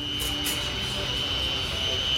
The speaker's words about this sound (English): All right, last stop, where else? We're going to the airport.